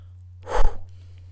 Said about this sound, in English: One more deep breath with a very abrupt exhale.